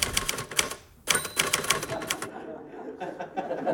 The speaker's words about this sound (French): Il tapait sur sa vieille Remington. C'était... On entendait le clic-clac de la machine à écrire de Georges.